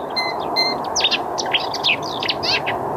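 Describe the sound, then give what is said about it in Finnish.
Birdsong made of quick bright chirps and short trilled phrases, repeated in bursts over a steady low background hiss. “Siinä varmaan oli vähän satakieltä.”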